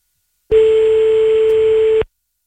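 A telephone line ringing as a call is placed: one steady, mid-pitched ringback tone lasting about a second and a half, loud and alone, with silence before and after.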